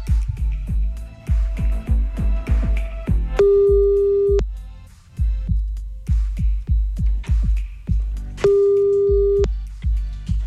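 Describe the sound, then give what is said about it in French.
An outgoing late-night telephone call ringing: two long, steady ring tones about five seconds apart, over a loud, thumping rhythmic music beat. “Allez, on y va, 1h38 du mat, c'est parti, on appelle.”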